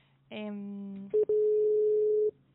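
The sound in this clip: Telephone tones as a call is redialed during a live interview: a buzzy, harmonic-rich tone lasting under a second, then a short beep and a long, steady, pure dialing tone that stops abruptly.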